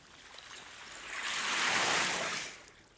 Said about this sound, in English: Here come the waves. Quick, quick!